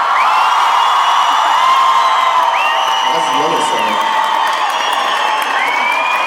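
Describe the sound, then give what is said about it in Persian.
Crowd of Esteghlal football fans clapping and cheering, a dense, loud roar of voices and shouts that holds steady from start to end without a break. “خب عرض به حضورتون که اول استقلالیه دست خوشی بزن”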